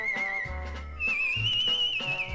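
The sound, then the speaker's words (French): Whistled tune from a record: a clear, high, steady melody with sliding notes over soft instrumental backing, loud and continuous throughout, with no talking. “Bah, il siffle bien déjà. Si c'est lui qui siffle. Il faut avoir du souffle, hein, c'est ça qui est pas évident.”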